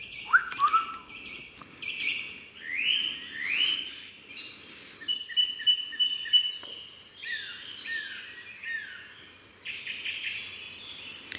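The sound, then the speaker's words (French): Birdsong in a French forest in the morning: several birds chirp and whistle in varied high, quick phrases, fairly quiet over a soft, steady background hiss. “le son d'une forêt française, pour être plus précise, le matin même”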